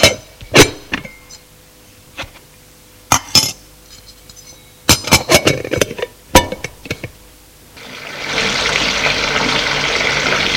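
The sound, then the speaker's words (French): Water running to fill a bath, heated for the household in the morning, comes as a steady, loud rush in the last few seconds, after a scattered series of sharp clinks and knocks of glass and dishes. “Faire chauffer l'eau du bain.”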